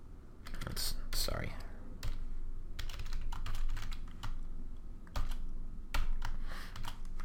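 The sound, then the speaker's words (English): Typing on a computer keyboard while writing code, with rapid bursts of key clicks separated by short pauses, fairly loud and continuous over several seconds. “Let me just type it out, and then I'll talk to it.”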